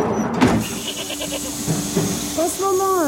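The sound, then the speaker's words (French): Goat bleating on a farm during milking, with a buck in mating season; a wavering, tonal bleat rises near the end over a background of low barn noise. “Là, Mathilde est en train de faire la traite, ouais. Et là, on est en pleine période des amours. Donc notre bouc s'en donne à cœur joie.”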